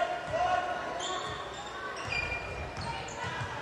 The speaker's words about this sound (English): Harden with the dribble out high.